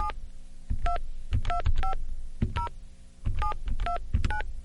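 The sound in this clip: Payphone keypad tones as a PIN is entered: a rapid, uneven series of many short dual-tone beeps, each pressed key giving a bright electronic chirp, some in quick bursts, with no talk.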